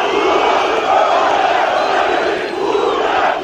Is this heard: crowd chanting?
yes